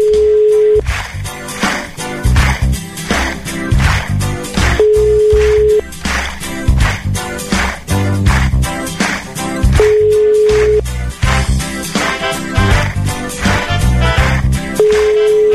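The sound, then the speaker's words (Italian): Telephone ringback tone while calling someone: four steady, mid-pitched beeps, each about a second long and spaced roughly five seconds apart, sounding over loud rhythmic background music. “Stiamo chiamando Rita da parte di Davide.”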